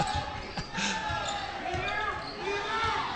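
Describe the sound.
Basketball dribbled on a court during a game, several sharp rhythmic thuds bouncing beneath a commentator's continuous talk.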